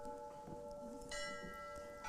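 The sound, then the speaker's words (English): A bell rings with sustained, steady, clear tones that hold throughout, brightening again with fresh strikes partway through and near the end. “We have a bell ringing here. Maybe they should be able to hear that.”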